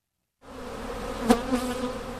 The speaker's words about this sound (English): This is the sound one typically associates with the honeybees that pollinate California's crops and orchards.